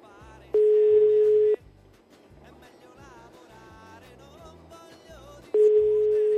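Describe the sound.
A telephone busy signal on a call line, two long, steady beeps about four seconds apart, each lasting about a second, the second cut off, over faint background music.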